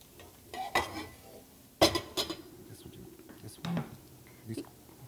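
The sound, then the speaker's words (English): A frying pan is set up on a stovetop to heat oil, with a few metallic clanks and knocks among softer handling noises, while voices speak quietly. “So next we need a pan hot with some oil. Okie dokie. Pan hot with some oil.”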